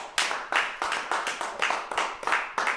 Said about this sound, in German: Applaus.